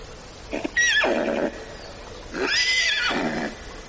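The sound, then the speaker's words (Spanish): A white horse tied to a tree neighs twice, each whinny a loud, high, quavering call that drops into a rougher, lower tail, with a short pause between the two calls. “Un caballo blanco sale de detrás de un árbol.”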